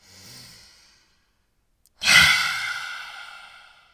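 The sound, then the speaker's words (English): Breathing exercise with the tongue stuck out: a faint breath, a short silence, then one loud, forceful, hissing exhale that slowly fades. “Take a deep breath in. Don't forget to stick out that tongue. Cross the eyes. Deep breath in.”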